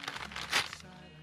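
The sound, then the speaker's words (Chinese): A snack package is torn open along its tear line. Brief plastic crinkling leads to one short, sharp rip of the wrapper. “怎么打开呢？哦，沿此线撕开。”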